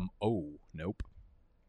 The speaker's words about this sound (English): My wire for my microphone just slapped my keyboard